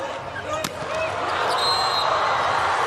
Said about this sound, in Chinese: 好发球。